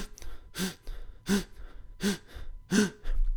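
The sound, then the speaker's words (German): Breathing under pressure or fear: four intense, sharp inhales in an even rhythm, each a loud gasping rush, with lighter, pressed exhales between them and no talk. “Intensives, starkes Einatmen, leichtes, gepresstes Ausatmen.”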